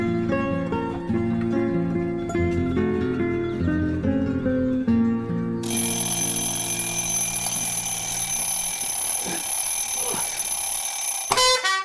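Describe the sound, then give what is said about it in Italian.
Alarm clock ringing: a loud, sustained electronic ring with a bright, shrill, buzzing tone. It follows a passage of stepped melodic tones and cuts off sharply at the end. “La sveglia suonò alle 6 di mattina.”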